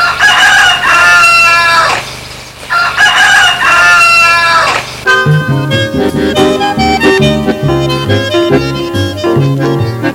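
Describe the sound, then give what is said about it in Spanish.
A rooster crows twice, each call loud, drawn out and harmonic with a short gap between them, and then music begins and carries on alone. “Después que canta el gallo.”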